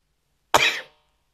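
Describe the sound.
A single sharp sneeze from a person with allergies: one abrupt, fairly loud burst that fades within about half a second, with silence on either side.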